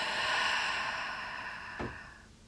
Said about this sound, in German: Und erstmal ganz tief ein und ganz tief ausatmen.